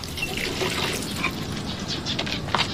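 Running tap water while someone washes their hands: a continuous rushing splash with small irregular spatters over the steady flow, no talk.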